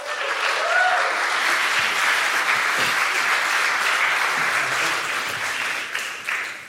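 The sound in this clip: Audience applause welcoming a professor to the stage: dense, steady clapping from a crowd that fills the whole stretch and eases off slightly near the end.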